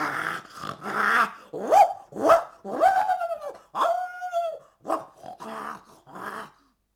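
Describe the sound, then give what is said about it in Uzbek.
Dogs bark and growl at a bear, with puppies and dogs from neighbouring yards joining in. Around a dozen separate bursts mix rough growls with higher yelping, whining tones in an uneven, agitated rhythm, all fairly loud. “Kuchuklar ayiqni ko'rib, unga tashlanibdilar. Qo'shini hovlilardagi itlar ham vovullab”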